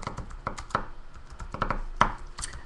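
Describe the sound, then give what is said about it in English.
Fingers type on a computer keyboard to post a link on Twitter, giving many quiet, irregular key clicks in uneven bursts with no talking. “I'll take this link and I'll throw it up on Twitter right now for my peepos. When I'm really high, I can't type that good if I think about it.”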